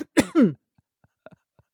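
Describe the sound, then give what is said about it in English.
Throat clearing in two quick, rough, cough-like bursts, then near silence broken by a few faint ticks. “Oh, no, are you coughing? No, I'm just clearing my throat.”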